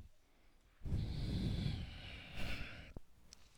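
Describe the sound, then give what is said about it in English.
A long, deep exhale during a yoga forward fold: a soft, breathy rush of air, fairly faint, with a light click near the end. “And exhale, fold.”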